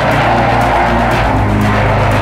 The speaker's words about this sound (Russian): А вот самолет взмывает, как ракета, перед камерой нашего второго оператора, который разместился на скале.